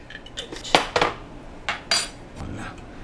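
A spoon clinks and scrapes against a bowl while mixing green chilies with 1.5 teaspoons of salt: a few sharp metallic taps and light scrapes, fairly quiet, with no talking.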